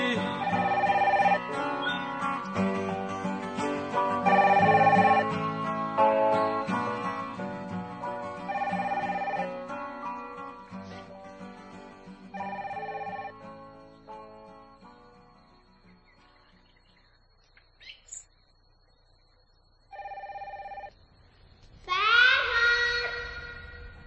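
A telephone rings a few times in short bursts as music fades out.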